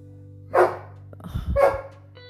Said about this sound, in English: This dog is plumb crazy, I'm telling you. I apologize for the barking.